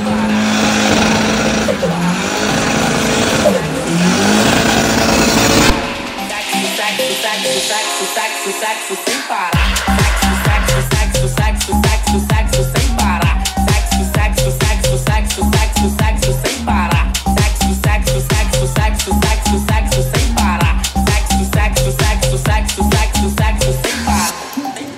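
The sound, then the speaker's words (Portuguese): A Chevrolet Corsa engine revs a couple of times, then a heavy, fast electronic beat with booming bass takes over and runs loud and steady to the end. “Cala a boca e escuta o som do meu Corsa.”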